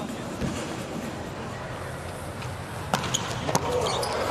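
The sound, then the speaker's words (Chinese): Volleyball serve struck during a match: a few sharp, percussive smacks of the ball under a male commentator's voice and the steady roar of the arena crowd. “拉古姆奇亚的发球，”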